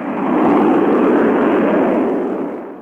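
Deep rocket engine ignition and launch roar, a dense rumbling blast that swells within the first half second, holds steady and loud, then gradually fades toward the end, with no voices.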